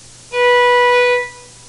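A B note played with the first finger on the first tape of the A string of a stringed instrument, one clean, steady sustained tone lasting just under a second before tapering away, heard on its own.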